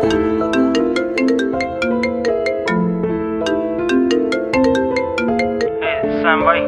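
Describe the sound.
A mobile phone ringtone plays a bright electronic melody of quick repeated notes over a steady accompaniment. It holds loud and even throughout, and a brief different sound enters near the end.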